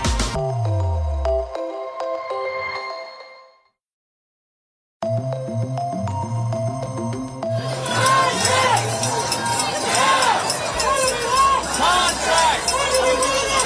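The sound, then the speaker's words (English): A protesting crowd of striking Hollywood writers, demanding better pay and conditions, fills the sound after a short silence with a dense, loud roar of many voices and commotion. “That there is the sound of Hollywood writers across the United States striking for better pay and better conditions.”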